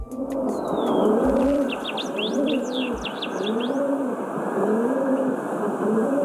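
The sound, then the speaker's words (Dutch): A feral city pigeon coos in several repeated low, rolling phrases, steady and moderately loud, while higher chirps from other birds flit briefly above it. “Wat horen we hier? De stadsduif.”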